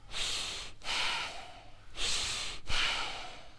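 Fast, controlled breathing during a breathwork exercise at a workshop. Four forceful, airy breaths of about a second each follow one another with only brief gaps, loud and rhythmic, with no talk.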